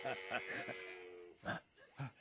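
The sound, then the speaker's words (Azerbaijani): A camel calls with a drawn-out, buzzy, bleating groan of rich harmonics lasting over a second, followed by two shorter, breathy bursts. “Nə idi? Nə idi bu səs? Ha? Gələn bu səs nəyin səsi? Hansı səsi deyirsən? Dəvə səsinə bənzəyirdi.”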